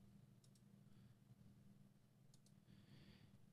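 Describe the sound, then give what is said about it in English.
Faint clicks of a button on a computer come as two quick double clicks about two seconds apart, over a low steady hum. “Let me go ahead and click on the button.”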